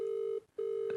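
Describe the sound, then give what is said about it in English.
A steady, low telephone ringback tone on an outgoing call, heard alone and fairly quiet, broken once by a brief gap before the tone resumes. “Please answer the phone. Answer the phone, please.”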